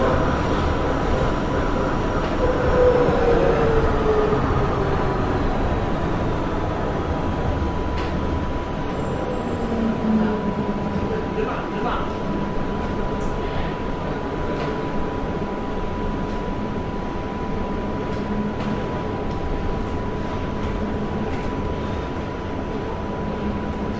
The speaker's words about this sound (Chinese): 欢迎再次乘坐广州地铁。 列车即将到达银河西站，请小心列车与站台之间的空隙。